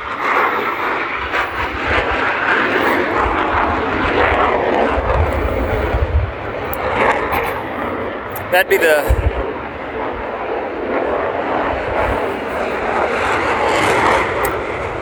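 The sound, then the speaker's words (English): F-18 fighter jets fly overhead with a loud, broad, sustained engine roar that fills the whole clip, including a brief sharper burst midway. A man speaks briefly over the noise. “There goes an F-18.”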